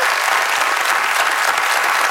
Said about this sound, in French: On l'applaudit.